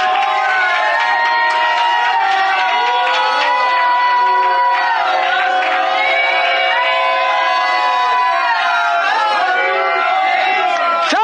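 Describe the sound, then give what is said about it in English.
Church audience shouting and cheering during a worship service: a dense, continuous mass of raised, overlapping voices that stays loud and sustained from start to finish. “You're looking around and say, what are that folk all shouting like that for? Are you so proud, so haughty, that you can't join in with the saints?”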